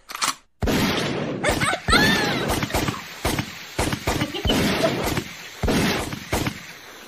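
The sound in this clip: Gunshot sound effects are played on cue for a dating-show recap panel: many sharp, booming bursts fire in an irregular rapid series while people talk and call out over them.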